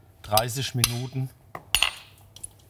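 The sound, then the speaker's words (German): Small baking molds filled with an egg mixture clink and clatter as they are set into an oven preheated to 180 degrees, giving a few sharp, ringing metallic knocks with brief pauses between them. “Und da geben wir dann gleich jetzt hier die Förmchen in den Ofen und garen das dann quasi”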